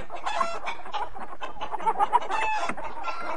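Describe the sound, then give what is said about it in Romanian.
Hens on a farm cluck and squawk in a busy, continuous chatter, with several sharper cries rising above a steady bed of overlapping bird calls. “Când auziră asta, găinile scoaseră un țipă teribil.”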